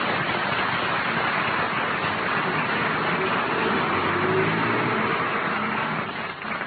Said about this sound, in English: McGee, your engine is smoking. Oh, why not? It's old enough. I guess driving so slow in second